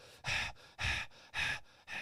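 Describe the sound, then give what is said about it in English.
A man's voice imitates a police officer breathing hard: four loud, evenly spaced heavy breaths with short quieter gaps between them, and no words spoken. “I hear a cop like breathing hard and he's like,”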